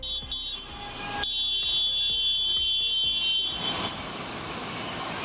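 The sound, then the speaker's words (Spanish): A farmers' and livestock breeders' tractor protest, nearly a hundred strong, moves through Pamplona's city centre streets. It is a loud, dense din of shrill sustained tones over a low engine rumble, with regularly repeating thumps. “Así suena el centro de la capital navarra. Casi un centenar de agricultores y ganaderos del movimiento 6F se están movilizando con sus tractores por las calles”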